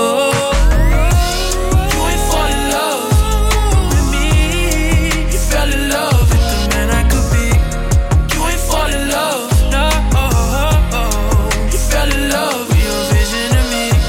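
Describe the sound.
Upbeat electronic pop music plays loud and continuous, with a punchy steady beat, bright layered synth lines and sliding, pitch-bending tones.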